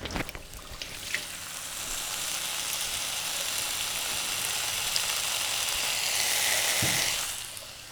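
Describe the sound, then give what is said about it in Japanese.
Frying sizzle from food cooking in a pan, a steady bright hiss that holds at an even level for the whole stretch with no voices over it. “この音毎回結構いいですよ、料理の 料理の音。”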